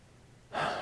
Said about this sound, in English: Before we go further, take with me a very deep breath.